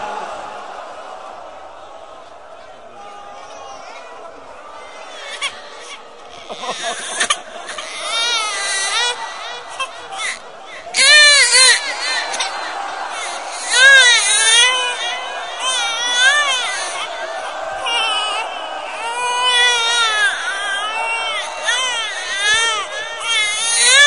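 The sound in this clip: An infant cries and wails again and again at a religious mourning recitation, with other voices and crowd murmur around the crying.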